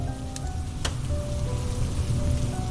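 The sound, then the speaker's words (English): Heavy rain pounds against windows as a dense, steady wash of low rumbling noise that holds at an even, fairly loud level throughout, with no voices. “and soon heavy rain pounded against the windows. Thunder rumbled in the distance as Anne and John”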